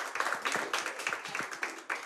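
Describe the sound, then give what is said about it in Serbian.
Audience applause for an orchestra at a kafana tavern music show: a dense, steady patter of many hands clapping that holds at an even level throughout. “Ali ću vas zamoliti, dame i gospodo, jedan veliki aplauz za orkestar Marka Đukića.”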